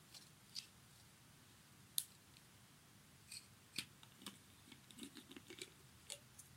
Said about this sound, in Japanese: サークル様からね、いただいた、媚薬を開封していきます。